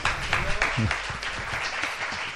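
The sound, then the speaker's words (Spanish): An audience applauds after a speaker at a presentation event, a dense, moderately loud wash of clapping across the whole clip, with brief speech sounds mixed in. “Un aplauso para muchas Diego.”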